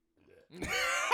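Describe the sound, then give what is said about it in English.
A voice imitates a burp with a short, low, croaky grunt that swells quickly and stays rough and loud to the end, after a faint breathy murmur. “he's like burping all over the flipping voice message, and that's all you hear.”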